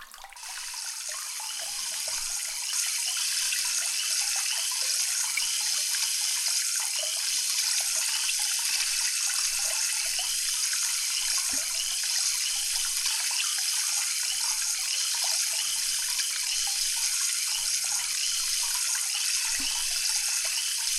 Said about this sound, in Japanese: このまま洗い流してまいりますので、目を開けないようにお願いいたしますね